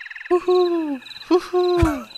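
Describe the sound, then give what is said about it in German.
Birds calling inside a tree house, giving a few hooting calls in quick succession, each drawn out and sliding slightly downward in pitch, fairly loud and alone. “Oh Gott, hier sind Vögel drin. Sag mal, wo fliegen die Vögel eigentlich hin?”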